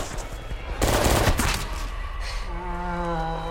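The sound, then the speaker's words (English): Gunfire riddles a mutant with bullets, a loud dense volley of rapid shots that swells in the first half, then drops to a lower, steady rumble. “Missy and Amber run for it as the other members of the patrol break cover and riddle Cleaverman full of bullets.”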